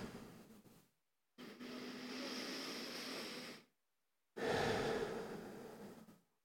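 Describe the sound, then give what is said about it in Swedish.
A slow, deep breath taken during a guided meditation. Two long, soft, airy breathing sounds are separated by a short silence and are quiet throughout. “Blunda och ta ett djupt andetag.”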